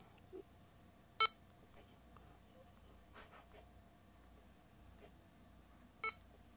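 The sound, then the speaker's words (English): Short electronic beeps from a device as its function key is pressed and its dial turned to set a memory. Two bright, high beeps sit several seconds apart over a faint, quiet background. “I'm going to hit the function key, the A. Then I'm going to turn the dial.”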